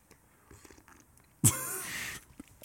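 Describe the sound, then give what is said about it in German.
A single loud slurping sip of coffee cuts in after near silence, lasting under a second before a faint quiet returns. “Sekunde, ich muss erstmal einen Schluck von meinem Kaffee trinken”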